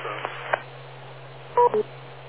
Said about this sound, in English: just want to wait for the beep there.